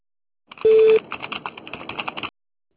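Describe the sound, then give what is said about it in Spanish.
An answering machine sounds its tone before a message is recorded: one short, steady, mid-pitched beep, followed by a stretch of clicky, narrow phone-line sounds that stop abruptly. “Después del tono, grabe”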